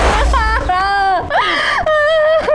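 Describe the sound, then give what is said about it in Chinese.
A person cries in long, wavering wails and whimpers. The voiced pitch bends up and down between breathy catches, loud and nearly continuous throughout. “别哭了啊！你再哭，你就把我们给哭毛了呀。”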